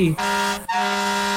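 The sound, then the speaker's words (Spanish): A pickup truck horn honks, a loud, buzzy, steady-pitched blast that breaks off for an instant and then holds for nearly a second. “Ah, el pito de la camioneta.”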